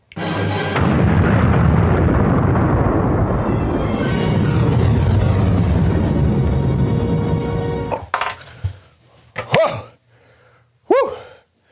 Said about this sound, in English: I did not expect that. I guess it's an exploding vagina candle.